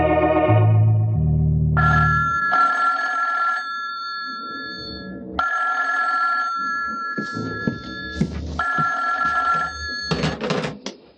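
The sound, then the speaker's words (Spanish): A telephone bell rings in a hotel room at two in the morning. The ringing comes in several bright, trilling bursts separated by short pauses, heard alone without talk. “A las 2 de la mañana, Calimán recibe una llamada telefónica en su cuarto del hotel.”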